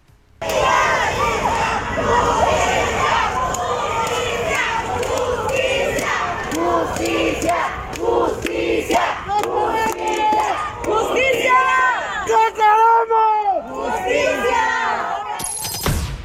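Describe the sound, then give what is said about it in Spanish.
A protest march crowd in the streets of Morelos, against the killing of a woman, chants and shouts loudly and continuously, a massed roar of voices with individual cries standing out near the end. “Así sonó esta marcha el día de ayer, el dolor desde las calles en Morelos.”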